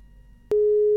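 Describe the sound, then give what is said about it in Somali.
Telephone busy signal after a radio call-in caller's line drops: a low hum gives way halfway through to a loud, steady, unbroken mid-pitched tone that holds to the end. “Dhegeystayaasina qadka telefoonka ayaa ka go'aya barnaamijka Abriidi Berlula.”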